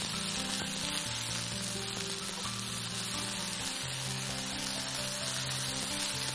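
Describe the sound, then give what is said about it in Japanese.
Steady sizzling of potatoes, green peppers and red bell pepper being stir-fried in a pan over medium heat, a continuous hiss with no pauses. “じゃがいもが透き通ってきましたら、ここにピーマンと赤パプリカを入れてさらに炒めます。”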